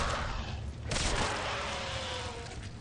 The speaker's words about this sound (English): And he shoots him in the face.